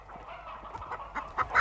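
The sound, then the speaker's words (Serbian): Agitated poultry clucking and squawking, chickens hidden under a hood, with several short cackles that grow louder toward the end over a low rustling background. “On ispod otrcanog kapišona krije čitava jata pokradene pileži.”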